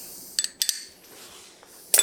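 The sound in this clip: A spoon clinks lightly as an ingredient is scooped out by the tablespoon in a kitchen for dough made in a food processor. A few faint, quick metallic taps come in small clusters, with a brighter clink at the end.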